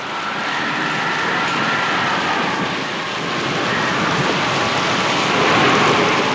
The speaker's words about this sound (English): Offshore, waves continue to pound the coast. At the post office, rain whips through the air as Mr. L.C. Prowitt ties his boat to a flagpole.